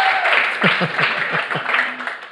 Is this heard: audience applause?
yes